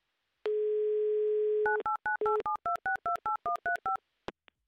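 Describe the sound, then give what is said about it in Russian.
A telephone dial tone holds steady for over a second, then a quick, even run of two-pitch keypad dialing beeps follows as a number is entered. A faint click comes at the end. “Так, номер мы набрали. Будем ожидать соединения с Менделеевском, с Виктором.”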